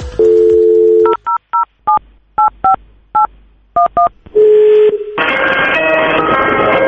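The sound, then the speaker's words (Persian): A telephone dialing a hospital: a steady dial tone, then nine short keypad beeps in uneven rhythm, then a ringing tone, followed by a louder, noisier stretch of sound. “زنگ زدیم به بیمارستانی جویا شدیم قیمت زایمان رو.”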